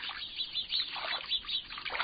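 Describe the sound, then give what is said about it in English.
A flock of small birds chattering unseen inside a bush: dense, overlapping high chirps and twitters in a continuous, faint stream with no pauses. “Sometimes a bush they've settled in seems to be alive with their chatter, even though you can't see a single bird.”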